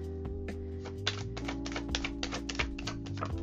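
Tarot cards being shuffled: many soft, irregular taps and flicks of cards in quick succession over a steady tonal hum, with no voices.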